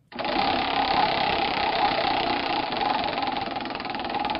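A prize wheel is spun, giving a rapid, continuous ticking rattle that starts abruptly and holds at a steady pace and level for several seconds without winding down.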